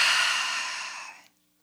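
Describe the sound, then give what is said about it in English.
A deep breath taken in and out during a breathing exercise, heard as one long, soft, breathy rush lasting about a second before it fades out, with no talking. “I'd like us all to take a deep breath in. In and out.”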